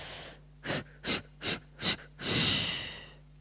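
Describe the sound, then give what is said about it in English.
A breathing exercise that imagines blowing out a candle: an opening breath, then four short, sharp puffs of air in an even rhythm, ending with one longer, sustained blow that slowly fades. “take a deep breath in and then take 5 exhalations to blow out the candle. So breath in.”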